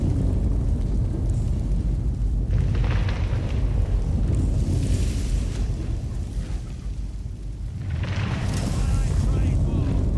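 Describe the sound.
A sanctuary burns in a video game with flames everywhere, giving off a loud, dense, continuous rumbling roar. The roar dips briefly near the end, then swells again.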